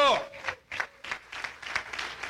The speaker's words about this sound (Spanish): Denle un aplauso al Señor porque Él es el Dios Todopoderoso.